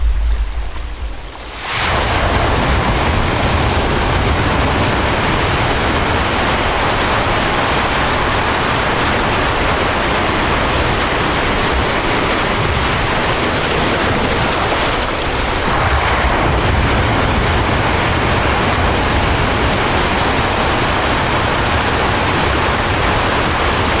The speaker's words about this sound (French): On l'a déjà vu mille fois. Et pourtant, ce n'est jamais la même chose. L'hypnose rend chaque vague unique.